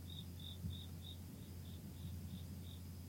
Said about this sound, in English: Yeah, it might be crickets you hear outside. I have the window open.